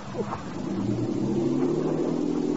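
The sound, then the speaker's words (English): A boat's engine drones as the boat leaves, a low, steady rumble that swells slightly and then holds at an even level. “There goes that luscious cookie Saria with the boat.”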